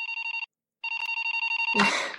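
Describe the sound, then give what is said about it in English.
A cell phone rings in a cartoon classroom with a fast, trilling electronic warble in two bursts split by a short gap. A voice cuts in just as the ringing ends. “poor Bart is called by Krusty in the middle of class on a cell phone”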